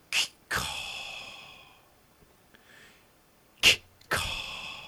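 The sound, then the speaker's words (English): A voice imitates a breathing apparatus that breathes for a person, making two rounds of sharp, hissing breaths, each a short burst followed by a longer, fading exhale, with quiet gaps between. “he had, like, a breathing apparatus. So, like, it was something breathing for him.”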